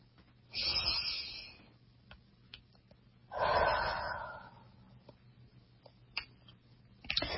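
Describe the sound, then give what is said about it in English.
A group takes a deep breath together before an ordination oath. Two long, breathy swells rise and fade, separated by a quiet pause, then a few faint clicks follow. “if everyone can just take a deep breath with me, it will be very supportive for me.”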